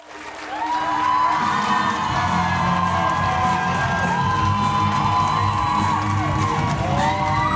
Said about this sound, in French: L'ambiance est comme d'habitude survoltée pour accueillir les guests.